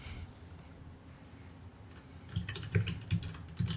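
Typing a note on a computer keyboard, quick irregular key clicks that start faint and grow into a few louder clustered strokes near the end, over a low steady hum.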